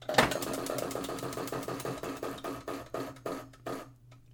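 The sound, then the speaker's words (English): A wheel of questions is spun, and its pointer ratchets in rapid, regular clicks that gradually slow and spread apart until the wheel comes to rest. “Should we get into our wheel of questions here so we can figure out what your story is today? Yes, let's spin.”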